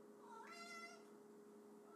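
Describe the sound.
A single faint cat meow that rises in pitch and then holds briefly before fading, over a steady low hum.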